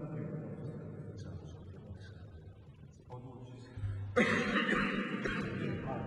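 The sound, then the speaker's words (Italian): Someone clearing phlegm from the throat: rough, gravelly rasping that builds to a louder, harsher burst near the end. “Si toglie il catarro dalla gola.”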